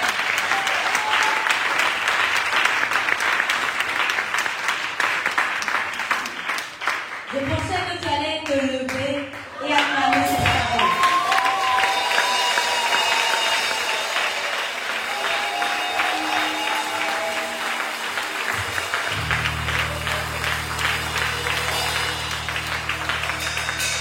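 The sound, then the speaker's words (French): An audience applauds and cheers after a sermon, sustained clapping that dips briefly partway through, then swells again and carries on steadily. “On sait que tu allais acclamer cette parole.”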